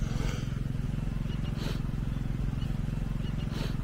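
A generator runs at a hurricane-damaged spot, producing a steady, low-pitched engine drone with a fast, even pulsing throb that continues unchanged throughout.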